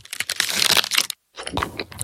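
Crunching and crackling of an Aero mint chocolate bar being broken, its aerated bubbles snapping in a dense crisp burst, then a brief silence and a second round of crunching.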